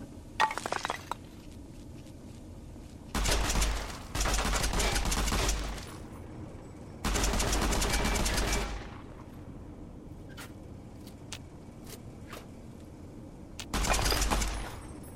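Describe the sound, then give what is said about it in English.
Gunfire shooting at the player in a video game arrives in a few sustained bursts of rapid, crackling shots separated by quieter gaps, with scattered sharp clicks and pops in between. “Can't see what's shooting at me yet.”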